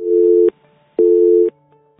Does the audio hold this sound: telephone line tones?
yes